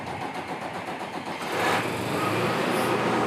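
The engine of a repaired farm machine runs with a dense, noisy drone that swells louder about halfway through and then holds steady.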